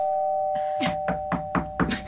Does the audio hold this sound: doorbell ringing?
yes